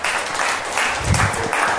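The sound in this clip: An audience claps during a talk, giving a brief burst of dense, even applause with no voices over it.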